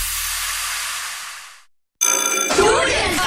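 A telephone rings with a bright, buzzing tone, loud and dense, coming in after a steady hiss fades out into a short silence.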